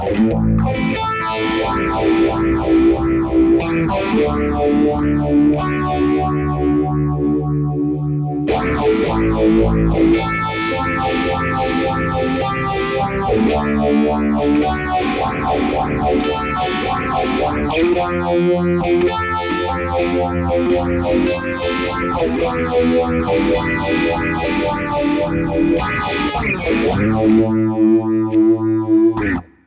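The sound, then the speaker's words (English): An electric guitar plays through a modulation effects pedal with its speed turned up: loud, distorted chords and riffs with a swirling, wavering sweep, continuous for about thirty seconds without talk. “That's what it'd be sounding like. Now let me switch positions and show you, switch pedal positions, and show you what it sounds like that way.”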